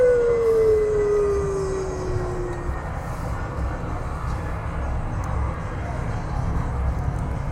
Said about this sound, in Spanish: Espérate, que pase el avión.